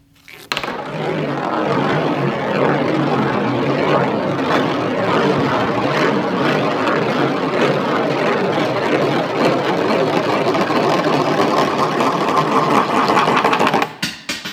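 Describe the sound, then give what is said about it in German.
A coin rolls down a large blue spiral donation funnel, making a continuous rattling whir that holds steady and loud for about thirteen seconds before stopping abruptly. “Ein blauer, großer Trichter, man kann ein Geldstück reinstecken, dann rollt das so runter und man kann sich freuen und man tut was Gutes.”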